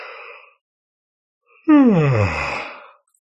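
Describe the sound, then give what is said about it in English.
A person yawning: one long voiced breath that slides steadily down in pitch for over a second. A brief breathy sound comes before it, and there is no speech. “All right, so I'm going to yawn.”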